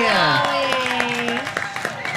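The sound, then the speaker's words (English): Audience cheering at a fair stage show: loud shouted voices with long, sliding tones that fall in pitch, scattered claps mixed in, then easing a little toward the end. “Can we get some cheers for Dolly?”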